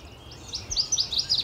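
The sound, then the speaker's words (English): A northern waterthrush sings from the bushes: a rapid run of loud, high, bright chirps that starts quietly and strengthens over the second half, with no voices. “I'm hearing a northern water thrush singing in the bushes right there. That loud chirping sound descending in pitch.”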